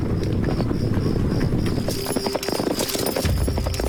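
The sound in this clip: Many horses' hooves clip-clop as Northern Wei cavalry march quietly through a remote mountain valley, a dense, steady patter of hoofbeats on the ground that continues throughout at moderate loudness.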